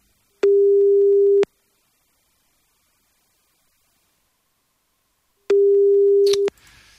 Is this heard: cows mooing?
no

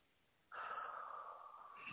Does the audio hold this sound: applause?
no

